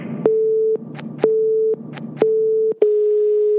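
A telephone tone after the line is hung up: a few evenly spaced, steady mid-pitched beeps, each cut off briefly before the next, the last one held on. The tone is loud and clear, with no voices.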